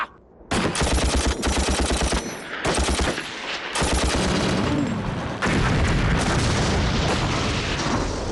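Heavy gunfire with rapid machine-gun bursts and booming shots, loud and nearly continuous for several seconds, broken only by brief gaps, with no voices.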